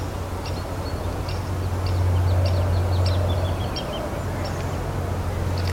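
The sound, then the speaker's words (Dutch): A woodlark sings as it flies past over burned juniper heathland, giving a faint run of short, thin, high notes in quick succession above a steady low rumbling hum. “Dat was een boomleeuwerik die blijkbaar het voorjaar een beetje in de bol heeft. Want die was een beetje aan het zingen. Die er voorbij vloog.”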